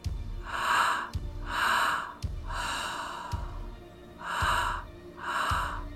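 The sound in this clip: Breathing sounds come from a person during a guided breathing exercise: five soft, breathy rushes of air, each lasting under a second, with the middle one longer. They rise and fall in a slow, even rhythm, and no one speaks.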